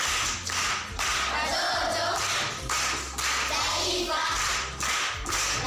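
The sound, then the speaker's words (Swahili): Children clapping together during a school riddle session, a steady, dense burst of hand claps that briefly dips a few times before picking back up, with no talking. “Makofi kwa mjomba.”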